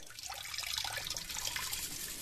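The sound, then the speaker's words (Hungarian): Water runs steadily from a tap at a sink while someone brushes their teeth, a continuous hissing rush with no breaks or voices. “Fogmosáskor zárd el a csapot, így naponta 10 liter vizet takaríthatsz meg.”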